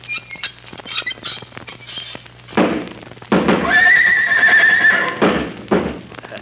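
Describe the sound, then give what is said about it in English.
A horse kicks up its heels, making scattered knocks and thuds, and then lets out a loud, drawn-out whinny. A few more thumps follow after the neigh. “Yeah, that's horses. What's that? That's Dandy kicking up his heels.”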